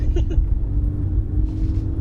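A car driving through the countryside gives a low, steady rumble of engine and road noise that drones evenly throughout.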